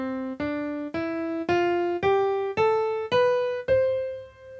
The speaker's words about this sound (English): So a C major scale is a tonal key signature. It sounds like this.